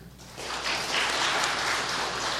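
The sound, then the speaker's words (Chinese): Warm applause for a pastor being welcomed, a dense wash of clapping that swells in after a quiet start and stays steady to the end. “我们以热烈的掌声来欢迎简国忠牧师。”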